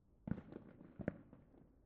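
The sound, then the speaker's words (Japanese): Fireworks display bursts: two strong booming pops stand out among a few lighter cracks and rumbles, loud and alone with no voices. “でも今日の花火はそのどれとも比べ物にならない。”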